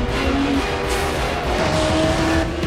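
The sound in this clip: A car roars and its tyres squeal as it weaves in front of a taxiing airplane at an airport during an action chase; a loud, continuous rush of engine and road noise, with thin squealing tones over it.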